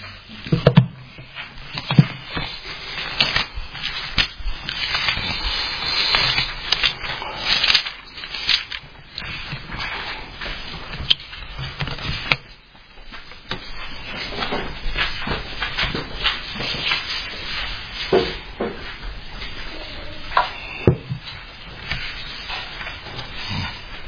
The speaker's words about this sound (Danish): Prøv at slå med mig om i Hebræerbrevet kapitel 1.